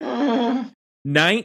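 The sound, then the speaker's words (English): A group of people groans together on cue: two sustained, low, voiced groans of overlapping voices, the first longer and the second shorter and brighter, separated by a brief silence. “Everybody let the groan out now.”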